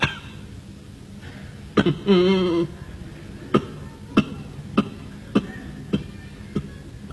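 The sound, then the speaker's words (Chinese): A voice imitating a person groaning and coughing while others eat: a brief wavering groan, then a series of short, sharp coughs at a steady rhythm over faint background noise. “连哼喽，带咳嗽。 嗯，那边吃饭，这边咳嗽。”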